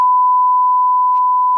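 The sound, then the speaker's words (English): A censor beep: one loud, steady, pure mid-pitched tone holding unbroken from start to end without any change in pitch. “there we go. Beep all that.”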